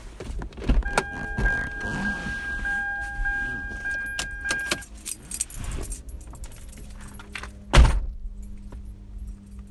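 Keys jangling and a power window whirring in a car used for cannabis deliveries, with a few knocks and a loud thud near the end.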